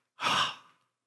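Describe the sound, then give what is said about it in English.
A single breathy exhale, used by a voice to sound out an unpronounceable divine name as pure breath: one soft, airy burst that swells quickly and fades away in under a second. “We tried to put letters to it. It comes out as a breath. It comes out this way.”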